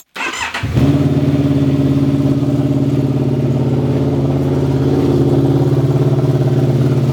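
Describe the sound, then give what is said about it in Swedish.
An engine cranks briefly on the starter after the ignition is switched on and the start button pressed, then catches and settles into a loud, steady idle that holds to the end. “Jag måste ju testa om, om det finns kräm, om den startar eller inte. Så att på med tändningen, trycka in start.”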